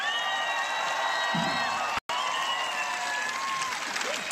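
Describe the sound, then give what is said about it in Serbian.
Concert audience applauding and cheering as two band members are introduced on stage. Thick, continuous clapping is mixed with whoops and calls, and it briefly cuts out near the middle. “Jedan veliki aplauz za Miroslava Cvetkovića Cveleta. I jedan veliki aplauz za Nenada Stamatovića Neleta.”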